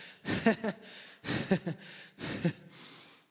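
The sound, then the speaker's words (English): Someone pauses while reading aloud to catch their breath, taking three heavy, gasping breaths. Each is partly voiced, and short pauses fall between them. “I have to get my breath.”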